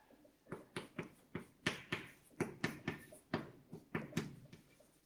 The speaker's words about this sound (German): ich schreibe dieses gleich mit Tilde drüber für isomorph